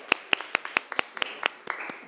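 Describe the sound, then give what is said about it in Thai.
A handful of people in a classroom applaud the first group, with sparse, distinct handclaps landing at a fairly steady pace and staying fairly quiet. “ปรบมือให้ตัวแทนจากกลุ่มที่หนึ่งนะคะ”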